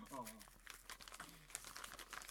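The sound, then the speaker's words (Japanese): Soft, crackly rustling and crinkling as a stiffly glued paper envelope is torn open, with plastic wrapping inside, a faint continuous run of papery crackles, with a voice briefly heard over it. “今封筒開けまして、えー、あなんか入ってますねビニールにちゃんと包まれて”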